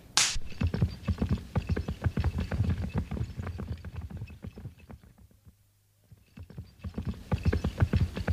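A horse's hooves clip-clop as it is urged on, in a steady, even rhythm of many sharp knocks. The hoofbeats fade briefly, then pick up again.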